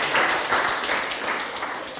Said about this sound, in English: Give him a clap for trying.